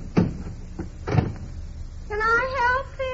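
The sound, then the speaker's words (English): A car trunk lid is unlatched and lifted open, giving two dull clunks about a second apart, followed by a person speaking. “Get the jack and the lug wrench from the back there, will you? Sure. It's open. Just lift it up and reach in.”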